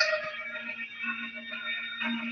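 A budget electronic organ, a cheaper alternative to the Hammond, played at a band's concert; bright sustained chords with steady held tones and slight shifts in the harmony.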